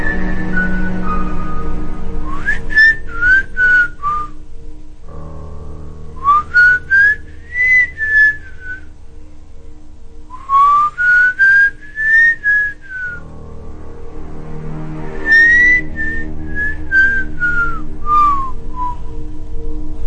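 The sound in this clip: Someone whistles at night, four bright melodic phrases of quick notes that swoop up and down in pitch, separated by short pauses, over a faint, steady low drone.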